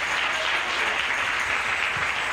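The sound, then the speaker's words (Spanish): Applause from a church audience, dense and steady clapping that fills the whole stretch at an even loudness, with no voices. “¡Den un aplauso a Cristo, hermanos!”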